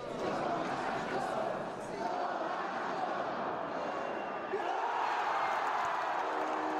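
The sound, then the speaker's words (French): Ice hockey fans roar in celebration of a goal by their team at a National Hockey League game in Montreal. The loud crowd noise holds steady throughout, with no breaks. “Ce que vous venez d'entendre, c'est les supporters des Canadiens de Montréal qui célèbrent un but de leur équipe de hockey en Ligue nationale.”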